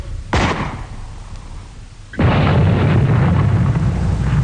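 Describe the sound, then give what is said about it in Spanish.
Artillery gun fire aimed at a Martian tripod in a radio drama of The War of the Worlds: a sharp boom with a fading tail, then about two seconds later a heavier blast that rolls into sustained loud rumbling. “¡Dimos en el trípode de uno de ellos! ¡Se han parado! Los otros tratan de arreglarlo. Rápido, variación de alcance, 30 metros. ¡30 metros, señor! Proyección, 27 grados. ¡27 grados! ¡Fuego!”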